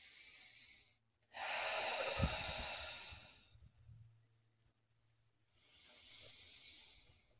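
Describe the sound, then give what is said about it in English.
Breaths drawn in through the nose during a calm centering exercise: two long, airy, hissing breaths with no talking. The first is louder and fuller, and the second is softer and comes a few seconds later. “So let's just take a moment. We're going to breathe in through our nose.”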